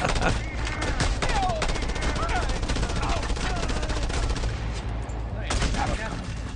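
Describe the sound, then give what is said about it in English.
Rapid fire from a big gun in a video game, a continuous rattling stream of shots with a brief break near the end, while a voice talks over it. “There's a big gun. And here's you dying.”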